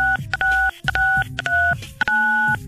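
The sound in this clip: Telephone keypad touch-tones as someone dials a letter-and-number code to call in. Several crisp dual-pitched beeps follow one another in a quick, uneven rhythm.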